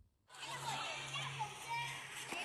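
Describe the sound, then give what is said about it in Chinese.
Children run and play on a village primary school playground around interactive science displays. Their voices chatter and call out in a lively, continuous wash that starts suddenly after a brief quiet moment. “记者在罗村村委小学看到，从六兰村委小学转来的孩子们正在操场上奔跑嬉戏，体验科普互动装置，笑声此起彼伏。”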